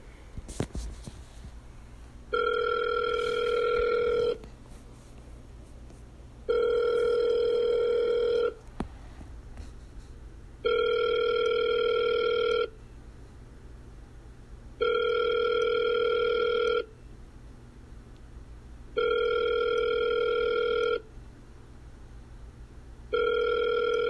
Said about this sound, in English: So I think I'm gonna prank call Steven